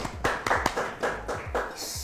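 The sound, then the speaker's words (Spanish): Clapping from an audience welcoming a guest at a school community event: sharp, distinct claps in a fairly steady rhythm. “Un aplauso para él.”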